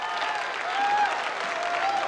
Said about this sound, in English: Marty looks out over the cheering crowd and nods